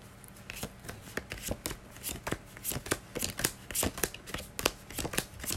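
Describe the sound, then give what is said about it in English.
Tarot cards being shuffled and gathered up make many quick, crisp snaps and riffling flicks in an irregular rhythm, fairly faint and with no voices. “Okay, so I'm picking up the last little cards.”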